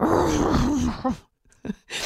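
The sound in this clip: A human voice imitates a dog's groan as it stands up or sits down on hardwood floors: a drawn-out, low, wavering moan of about a second, followed by a few short grunting bursts.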